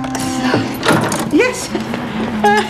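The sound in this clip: Keys rattle in the lock as the workshop door is unlocked, giving a few short metallic clicks and knocks beneath talking voices.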